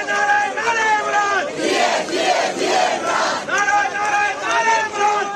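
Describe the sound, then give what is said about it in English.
Supporters of former Pakistani Prime Minister Imran Khan protest outside an election commission office in Karachi, a loud crowd chanting in repeated rhythmic waves of massed voices. “That was the sound of some demonstrations outside an election commission office in Karachi on Sunday. Supporters of the former Pakistani Prime Minister Imran Khan were protesting”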